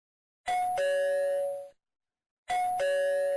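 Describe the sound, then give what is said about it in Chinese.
A doorbell at a home's front door sounds twice, each ring a clear two-note ding-dong chime with sustained bright tones. The first chime fades out, a short silence follows, then the second begins. “门铃响了，他有些不耐烦地起身。”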